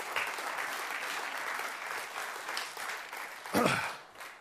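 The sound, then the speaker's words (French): A church audience applauds during a service, with dense, steady clapping sustained throughout and a brief louder swell near the end. “On va vraiment acclamer le nom de Jésus pour sa bénédiction.”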